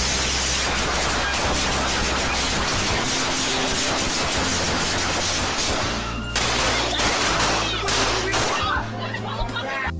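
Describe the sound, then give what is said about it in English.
Video game gunfire set in a Philadelphia street scene: dense, loud bursts of rapid shots crackle almost without pause, with a man's voice speaking over the barrage. “Getting fucking shot at”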